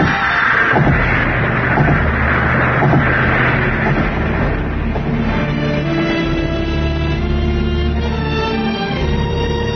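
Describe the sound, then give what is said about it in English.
A vehicle bumps over rough railroad tracks, heard as a loud, steady rumble from start to end with scattered jolts, mostly in the first few seconds. “Bumps. Rough ones. Railroad tracks.”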